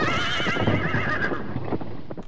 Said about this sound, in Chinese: 这是马车，如果马惊了，时速可达30公里。